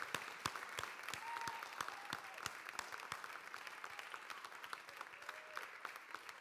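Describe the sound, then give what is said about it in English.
Church audience giving a standing ovation during a morning service; many distinct, sharp claps, fairly faint and loosely spaced, with a couple of brief whoops among them. “I would like you to give Jesus a big, huge, standing ovation this morning.”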